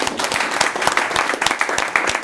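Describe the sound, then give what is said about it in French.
Audience applause after a conference talk on software compilers: dense, steady clapping from many hands that continues evenly throughout, with no voices over it. “les gens peuvent s'applaudir.”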